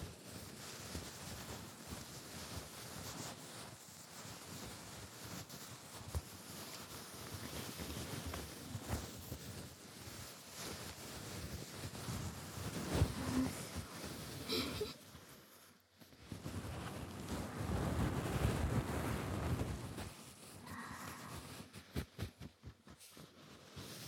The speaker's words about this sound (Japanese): なかなかにいい音のパンツですね。